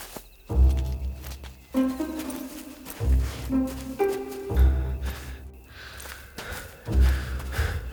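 Footsteps on a mountain trek toward a summit land as heavy, low thumps at an uneven pace, with several steps spread across the stretch.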